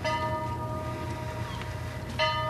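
The ship's bell of the historic whaling vessel Morgan rings on deck during a ceremony in New Bedford. A clear, lingering metallic tone with a low rumble beneath it is struck again near the end.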